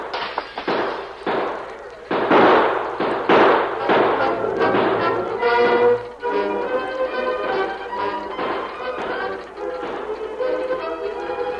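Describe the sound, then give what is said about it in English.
Gunfire in a Lone Ranger radio drama shootout, as Brent's men open fire on the masked man at a window. Many sharp, loud shots crack in rapid, irregular bursts throughout. “Brent had caught a glimpse of the masked man at the window and ordered his men to open fire.”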